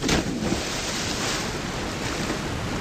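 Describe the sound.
Water splashes and surges at a deep swimming spot where people jump in, with a brief louder splash at the start, then a steady rushing wash of waves.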